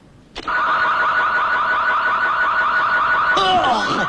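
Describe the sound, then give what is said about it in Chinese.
A highly sensitive car alarm goes off: a sudden onset into a loud, steady continuous tone, which switches near the end to rapidly warbling, sweeping tones. “对啊，我这种车子的报警信号是很灵敏的。”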